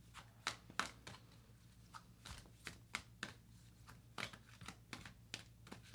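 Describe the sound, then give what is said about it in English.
Oracle cards, enchanted map cards, being shuffled and pulled from a deck: many soft, crisp papery snaps and flicks in an uneven rhythm, fairly quiet, with no talking. “All right, I'm pulling cards. Unexpected visitor. Okay. I'm pulling a few of these enchanted map cards.”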